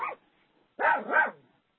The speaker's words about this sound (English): What was that? Oh, that's your dog